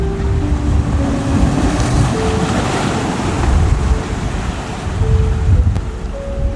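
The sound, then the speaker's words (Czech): Ocean waves surging and washing in a continuous roar, mixed with wind noise and overlaid by soft, sustained musical tones. “Tyto vlny jsou prostoupeny sluncem, jsou prozářeny.”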